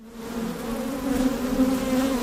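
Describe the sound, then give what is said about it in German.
Thousands of honeybees swarm around wooden hive boxes at a beekeeping farm, making a dense, steady drone with a low hum that swells slightly partway through. No voices are heard. “Um die Holzkästen schwirren tausende Bienen”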